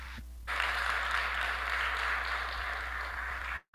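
Applause rises from an audience at a church service, welcoming a presenter: a steady, even wash of clapping that holds for about three seconds and then cuts off abruptly.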